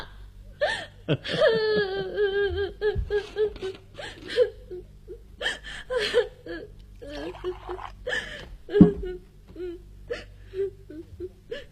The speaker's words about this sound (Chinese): 哎呀，怎么又哭了？